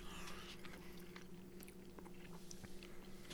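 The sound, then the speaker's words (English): Biting and chewing on a meat stick with a firm snap: faint, crisp crunching clicks and snaps scattered irregularly over steady low background noise. “How's the grind on it? How's it snap? Now oh, that, man, it's got a snap.”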